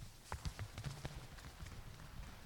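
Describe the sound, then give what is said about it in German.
Runners' feet pound off the start line in a sprint at a blind sports event, a rapid flurry of sharp footfalls that crowd together early and then continue as softer, scattered steps. “So, auf ja. die Plätze und dann mache ich direkt los und sprinten dann los.”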